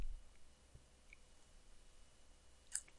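Computer mouse clicking: a couple of small, sharp clicks come close together near the end, after a stretch of faint background hiss.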